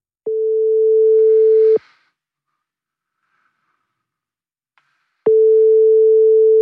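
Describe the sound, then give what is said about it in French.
A WhatsApp outgoing call rings with a steady, mid-pitched tone. Two beeps are heard, each about a second and a half long, separated by several seconds of silence. “Allez, c'est parti, on se connecte avec WhatsApp.”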